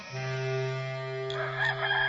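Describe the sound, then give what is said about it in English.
A rooster crows once in a single long, loud call with a strong harmonic tone that holds steady for about two seconds and brightens slightly near the end, heard alone. “Immediately a rooster crowed”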